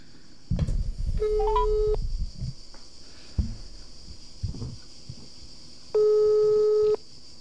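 Telephone ringback tone while calling someone: two steady, one-second beeps about four seconds apart, with clicks and handling noise before and between them.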